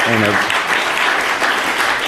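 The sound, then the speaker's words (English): Audience applause welcoming a guest speaker at a university public policy event: dense, steady clapping fills the whole clip at an even loudness, with a voice audible briefly at the very start. “in a round of applause”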